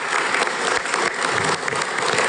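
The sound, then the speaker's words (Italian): An audience claps during a formal event honoring ambassadors: steady, dense applause that stays even and loud throughout, with no voices standing out. “Facciamo un applauso anche a loro perché è giusto.”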